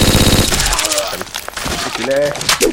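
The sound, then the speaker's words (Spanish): A turret fires in a video game: a rapid, loud burst of mechanical shots at the start, followed by scattered gunfire and a man talking over it. “al menos ya habéis visto el funcionamiento de la torreta más o menos”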